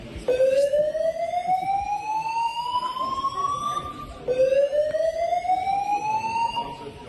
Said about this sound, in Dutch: En het bleek ook echt dat dit brandalarm is aangezet.